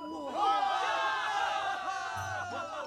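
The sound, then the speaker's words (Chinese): Infantry soldiers of an imperial army cheer after their victory over cavalry, many overlapping voices shouting and whooping together in a sustained, moderately loud roar. “都怔了一会儿才欢呼起来。”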